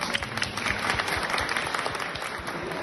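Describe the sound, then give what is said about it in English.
Round of applause at a wedding ceremony after the ring exchange: dense, steady clapping from a group, even in loudness throughout without a clear start or end. “I think we'll have to get a round of applause.”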